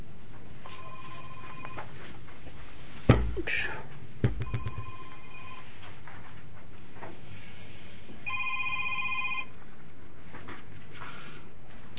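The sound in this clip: A telephone rings in three separate bursts of electronic ringtone spaced a few seconds apart, with clunky handling knocks between the first and second rings.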